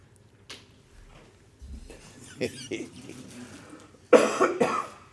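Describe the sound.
A person coughs in a loud, harsh burst of a few rough hacks near the end, after quieter throaty sounds and faint rustling.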